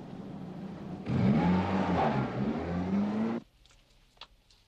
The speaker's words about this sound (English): He restarts the car.